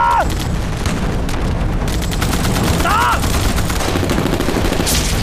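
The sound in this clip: Dense, continuous gunfire and explosions in a video game artillery battle, a loud, unbroken barrage of rapid shots and booms with a few brief tonal chirps cutting through.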